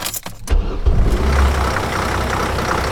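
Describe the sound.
Engine of a moving University of Alabama campus bus with hydraulic doors: a steady low rumbling drone with broad road noise. A few uneven bursts come early before it settles into an even roar.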